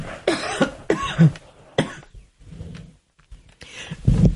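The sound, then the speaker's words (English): A few coughs from someone with a tickle in the throat: short, fairly loud bursts separated by brief pauses, with no speech. “Excuse me, that's just a tickle in my throat.”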